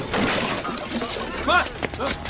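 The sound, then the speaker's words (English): Car crash with breaking glass as a car rear-ends another, rolls into a pole and lands on its roof. Dense, noisy shattering and clatter run throughout, with voices over it. “Rear ends car. Car rolls and crashes into a pole, lands on its roof.”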